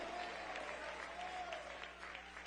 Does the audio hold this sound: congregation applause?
yes